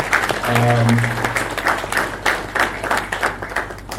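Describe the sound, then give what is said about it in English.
An audience applauds to welcome a speaker at a morning gathering. Steady, dense clapping lasts about four seconds, with voices mixed in. “Let's welcome him. Let's give him a big hand.”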